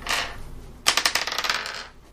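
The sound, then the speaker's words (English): A twelve-sided die is rolled during a tabletop role-playing game, landing in a quick run of bright, hard clatters that bounce closer together and fade out within about a second. “So roll me a d12 and add 6 to it.”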